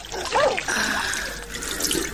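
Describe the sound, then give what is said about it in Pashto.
Water being poured into a jug, a continuous rushing, splashing stream that stays fairly loud and even throughout. “صبر، چې لوټکه کې اوبه واچوم.”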